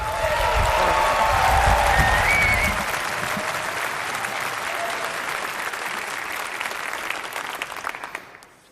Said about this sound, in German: Deswegen begrüßen wir dann 10-Punkte-Applaus Simon!